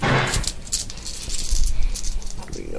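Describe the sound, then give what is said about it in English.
Dice rattle as a pool of them is rolled during a tabletop role-playing game, a busy stream of small clacks and clicks that swells and fades across the moment. “Let me just try a different pool of dice here, because why not?”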